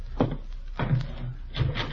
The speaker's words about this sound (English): Somebody at the door, Gildy. Yeah, I'll go.